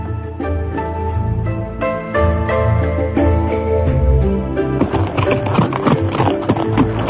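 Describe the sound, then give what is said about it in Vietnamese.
Galloping horse hooves of a single horse carrying two riders through mulberry gardens, the beats sounding over a steady tonal background and growing busier toward the end. “Đoàn Dự cùng Dương Ngữ Yên cưỡi chung một con ngựa, phóng qua không biết bao nhiêu vườn dâu.”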